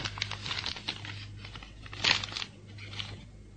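Paper envelope being opened, heard as faint rustling and crinkling with a few short tearing bursts. One crisper, louder tear comes near the middle, then softer paper handling follows. There is no talk.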